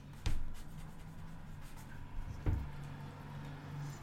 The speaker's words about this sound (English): Is this a felt tip pen? I think it's like a marker thing. Here, try to write on that.